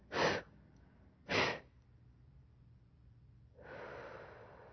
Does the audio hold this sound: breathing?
yes